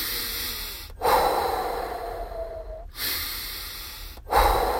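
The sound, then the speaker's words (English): Slow, deep breaths in and out, a few long airy breaths separated by brief pauses. Each breath begins with a stronger rush of air and then tapers off gradually, fairly soft and alone without talk. “take a few deep breaths in and out.”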